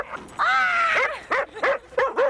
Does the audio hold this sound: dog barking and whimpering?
yes